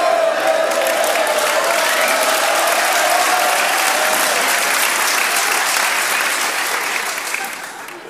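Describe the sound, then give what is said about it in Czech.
Audience applause from a crowd, a loud, dense and even wash of clapping that holds steady for several seconds before tapering off at the end. “a na závěr potlesk ještě”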